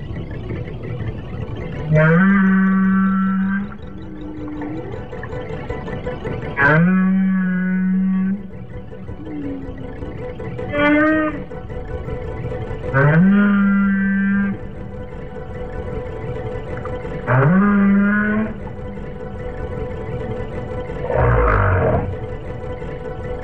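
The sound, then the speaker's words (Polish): Humpback whale song underwater: about six long, low moaning calls with wavering, rising and falling tones, separated by pauses over a steady low hum. “Uwaga, humbaki, wieloryby i ich podwodni przyjaciele.”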